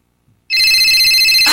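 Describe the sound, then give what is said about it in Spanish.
Telephone ringtone cuts in abruptly after a brief silence, a loud, steady, high-pitched electronic ring with a rapid warble that continues to the end. “Ah, me suena el teléfono.”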